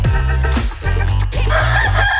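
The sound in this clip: A rooster crows loudly and continuously, a strained, harmonically rich call that fills the whole moment without any talking.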